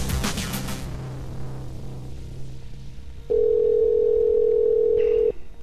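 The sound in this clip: Telephone tone on a call: a low steady hum, then a clear, continuous single-pitched tone holding for about two seconds before cutting off.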